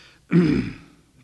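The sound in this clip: A single rough throat clearing: a sudden low, gravelly burst that peaks at once, then trails off over about half a second, alone with no speech around it.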